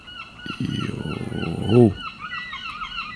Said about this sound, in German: Grüße von den Möwen hier. Wollte sich auch nochmal kurz melden.